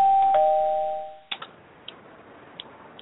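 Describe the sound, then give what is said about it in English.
A doorbell chime sounds once as a two-note tone that rings and fades over about a second, followed by a few faint clicks and taps. “Ding dong, who's at the fucking door?”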